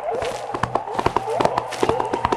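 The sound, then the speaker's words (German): Galloping hoofbeats of a white horse carrying a rider through a forest, a fast, steady clatter of many hoof strikes over a sustained tonal backdrop. “Ein weißes Pferd mit einem weißen Reiter schnellt durch den Wald.”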